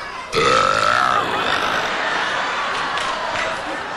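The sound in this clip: A deliberate, tonal burp forced out by a man as a comic demonstration: one loud, drawn-out belch lasting about a second, followed by a steady wash of noise.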